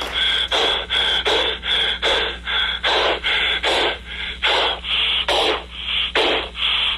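Heavy panting of people catching their breath after running in a supermarket grocery grab contest: many quick, rasping breaths in a steady rhythm, loud and alone with no talk.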